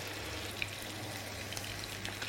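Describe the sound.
Meat frying in a salted pan gives off a steady, even sizzling hiss with a few small crackles scattered through it, and no one speaks.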